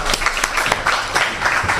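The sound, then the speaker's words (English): One person clapping their own hands alone, a few sharp slaps spaced irregularly across the short stretch, fairly loud with no talk over them. “I'll clap myself, shall I?”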